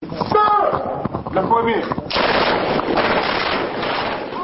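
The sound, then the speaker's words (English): Practice rifle fire from about a dozen Nigerian soldiers shooting at cardboard cutouts in the desert; a man speaks briefly at the start, then dense crackling bursts of shots fill the rest. “About a dozen Nigerian soldiers fire off practice rounds at cardboard cutouts in the desert as a group of U.S. Marine trainers looks on.”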